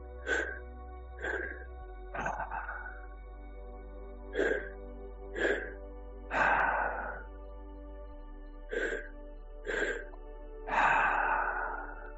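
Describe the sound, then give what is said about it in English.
Breathing during a guided deep-breathing exercise: many short, soft breath sounds spaced at a fairly regular pace over a steady, faint musical tone. “We'll do a couple more breaths here.”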